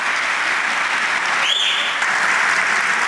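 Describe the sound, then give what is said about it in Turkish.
Long applause in the Turkish parliament as a departing parliamentary group deputy chair is honoured, with many hands clapping in a dense, steady rush that holds at an even, loud level throughout. “Uzun süre alkışlanan Bekir Bozdağ böylece Meclis Grup Başkan Vekilliği görevine veda etmiş oldu.”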